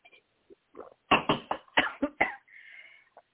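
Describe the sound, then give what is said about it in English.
A person coughs mid-interview in a rapid, loud fit of about six harsh bursts, with a few fainter throat sounds and a brief raspy breath after them. “To be coughing on the radio.”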